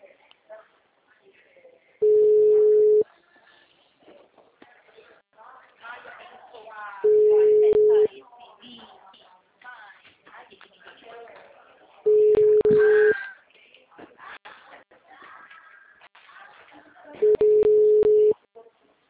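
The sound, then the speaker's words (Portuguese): A telephone ringback tone sounds while a call is being placed: four steady, mid-pitched tones, each about a second long, spaced evenly about five seconds apart, with a voice talking quietly between them. “Agora tá chamando.”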